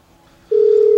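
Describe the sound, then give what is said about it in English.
A steady telephone tone rings out while a call is placed back after a poor connection. It starts halfway through and holds loud and flat, at one unchanging pitch, to the end with no voices. “Let me call back”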